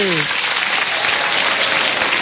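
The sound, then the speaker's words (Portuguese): Applause for birthday celebrants fills a church service, a steady, dense rush of clapping from start to finish, with a brief voice at the very beginning. “Vamos aplaudir os aniversariantes? Vamos ou não? Vamos.”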